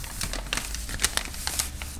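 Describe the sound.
Crinkling paper as a paper bag with a small eyehole cut in it is pulled on over someone's head; a continuous rustle broken by a few sharper crackles.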